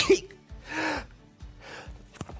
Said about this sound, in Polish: Zaraz będę kichał chyba. Ale może jeszcze mi się uda tego... Nie, chyba mi się nie uda tego uniknąć.